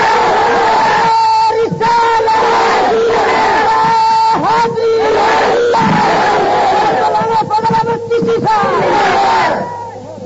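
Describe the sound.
A crowd answering the takbir chant at a religious speech in Urdu and Pashto, many voices shouting together in loud, sustained unison bursts, repeated several times before fading at the end.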